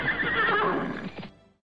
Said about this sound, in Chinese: 吃苦耐劳、奔走如风的伊犁马很快就吸引了草原先民的注意。